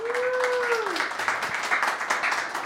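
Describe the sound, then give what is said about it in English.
Audience applause for a guest: a dense, steady wash of many hands clapping that holds at an even level for the whole clip. “First of all, everybody, let's show our appreciation to Daniel for staying up until 3:30 in the morning local time.”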